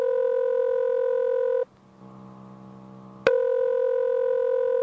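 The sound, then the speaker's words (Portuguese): Telephone tones sound while someone dials a five-digit number. A steady tone breaks off into a lower, buzzier tone, then a sharp click brings the first tone back. Nobody speaks. “Não deixa que eu ligo, pera aí, eu vou ligar agora. Pegar os números aqui, só tem 5 números, pera aí, tá tocando.”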